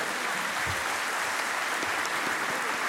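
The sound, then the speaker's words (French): Applause plays as a faint, even wash of many hands clapping together. It stays at a constant low level, with no individual claps standing out. “C'est bizarre les applaudissements d'habitude et on fait pas ça.”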